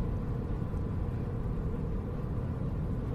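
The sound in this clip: Steady low road rumble fills the interior of a moving car, a continuous, even drone with no breaks and no voices.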